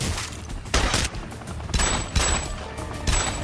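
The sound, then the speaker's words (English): Gunfire in a firefight with an armed SWAT team: dense, crackling shots run throughout, with several louder booming bursts standing out at irregular intervals and no talk. “now we've got a bit of a firefight”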